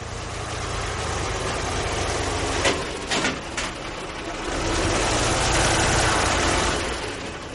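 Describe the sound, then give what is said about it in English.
Heavy engines rumble as armored personnel carriers, tanks and other military equipment are loaded onto trucks in Afghanistan. A loud, steady low drone runs throughout, broken midway by a few short metallic clanks. “That is the sound of armored personnel carriers, tanks, and other military equipment being put on trucks in Afghanistan.”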